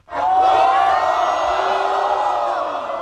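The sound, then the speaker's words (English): A crowd in the TNT pool hall in Xi'an roars a cheering welcome for a new world champion: loud, sustained cheers and whoops that start abruptly and hold steady, easing only slightly at the end. “Well, hopefully the sound tells a bit of the story. I mean, he got an absolute rock star welcome when he walked into the TNT pool hall here in Xi'an.”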